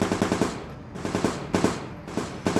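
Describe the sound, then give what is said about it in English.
Semi-automatic pistol gunfire in a battle scene, shots aimed at foes on the ground and in the air: many sharp, loud cracks fired in rapid bursts with brief pauses between clusters. “firing her semi-automatic pistol at the angels on the ground and in the air.”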